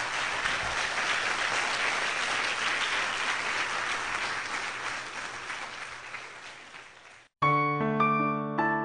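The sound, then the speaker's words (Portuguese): A church audience applauds, a dense, steady roar of clapping that slowly thins before music cuts in abruptly at the end. “Vamos aplaudir o nosso Deus então”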